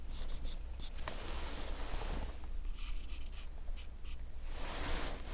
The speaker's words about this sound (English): And draw the shape of your brows.